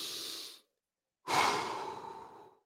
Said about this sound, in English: I'm just getting my wits about me. That might take 2-3 minutes. Deep breath.